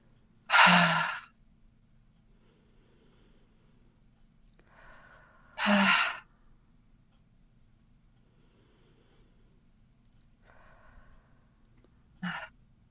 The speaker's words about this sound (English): let's take three big deep breaths to complete this healing.